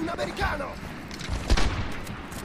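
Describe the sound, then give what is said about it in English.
Gunfire crackles in the video game Medal of Honor Airborne, a short burst of a few sharp shots over a noisy, rumbling background. “Oh snap, they're shooting.”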